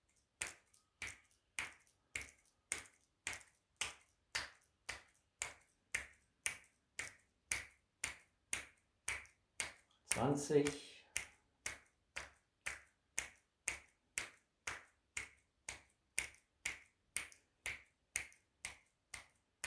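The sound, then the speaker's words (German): Fingers spread and then flick sharply against the heel of the hand during a breathing and relaxation exercise with the arms raised roughly horizontal. Many crisp, quiet snaps follow one another in a steady, even rhythm of about two per second. “Die Finger spreizen sich und dann mit Schwung schnallen die Finger an die Handballen ran, mit Ton.”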